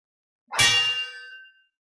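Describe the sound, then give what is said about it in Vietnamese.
A saber rings out with a single bright metallic clang that starts sharply and rings on, fading over about a second. It is loud and stands alone with no voices. “Một tiếng đao ngâm vang vọng khắp thiên địa, Diệp Phàm”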